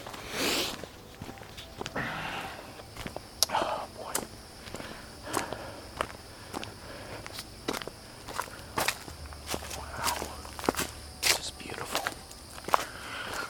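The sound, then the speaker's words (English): Footsteps of a person walking on terrain where tripping is easy. Many crisp, sharp steps fall at an uneven pace over a quiet background. “It's easy to trip and fall. So I'm actually glad I'm walking.”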